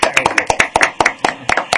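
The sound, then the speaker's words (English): Quick, sharp hand claps from a few people giving a round of applause to a guest at the end of an interview, with many crisp claps in a fast, steady rhythm. “Hey, round of applause for Pip Stewart.”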